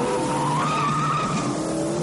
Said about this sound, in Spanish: Conducen acelerando a toda velocidad por la zona de los muelles, mientras Gino le pisa los talones.